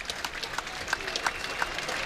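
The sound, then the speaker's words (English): Applause from a football crowd giving a standing ovation to an injured Boston College player carted off the field: a steady, dense wash of clapping and crowd noise, fairly faint, with scattered sharper claps throughout. “to check on him as he will get a standing ovation as they plan to cart him off the field”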